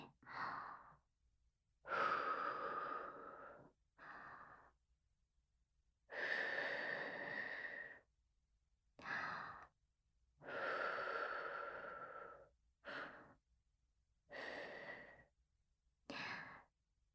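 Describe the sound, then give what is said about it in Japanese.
Gentle blown breaths meant to dry something that was applied too thickly: about nine soft, airy exhales of uneven length, separated by short pauses, with no talk. “乾かしちゃえば平気だから。こうやって息を吹きかけて、”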